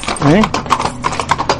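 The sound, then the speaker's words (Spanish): Horse hooves clip-clop on the cobblestone streets of an old city during a horseback ride, a steady run of sharp knocks under a person talking. “hermoso sonido de los cascos de los caballos en el empedrado de las calles de la noble ciudad”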